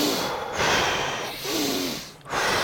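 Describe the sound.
Intense breaths drawn in through the nose during a breathing exercise, a few loud, rushing, breathy inhalations that open the chest, each swelling and then dipping briefly, with no talking.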